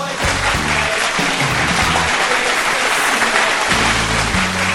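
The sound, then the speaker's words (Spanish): Applause: dense, loud clapping that continues unbroken through the whole clip, with low tones sounding beneath it. “un aplauso para todos”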